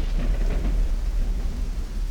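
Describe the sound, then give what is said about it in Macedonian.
Steady heavy rain drumming on Noah's ark, a dense, continuous, loud roar with a deep rumble like thunder underneath. “Ное и семејството го слушале постојаното тропање на дождот врз арката.”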